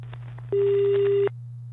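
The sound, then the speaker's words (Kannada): A single steady telephone line tone from an incoming call sounds for under a second over a constant low hum, then stops. “ಈಗ ಡಾಕ್ಟ್ರೆ ಒಂದು ಕರೆ ಇದೆ.”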